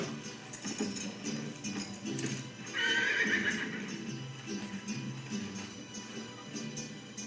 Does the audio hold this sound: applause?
no